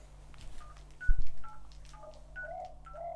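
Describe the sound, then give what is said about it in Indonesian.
A mobile phone text message alert sounds as a few short electronic beeps in a quick pattern over a steady low hum. “Oh, sebentar ya, saya ada SMS.”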